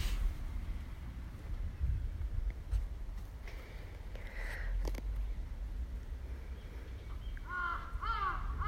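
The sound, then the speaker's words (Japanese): Crow cawing: a few harsh, hoarse caws come near the end over steady, rough wind noise, with no talking. “カラス鳴いてる。”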